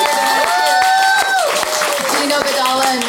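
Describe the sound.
An audience claps and cheers to honour a community, sharp scattered handclaps rising out of a steady crowd roar while a voice carries on over the noise.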